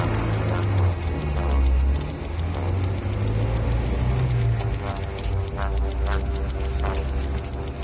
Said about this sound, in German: Lassen Sie den Motor laufen.